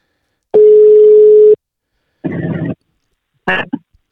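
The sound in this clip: A steady ringing tone sounds once for about a second as a call is placed to an ordinary phone number, then two short voice bursts follow.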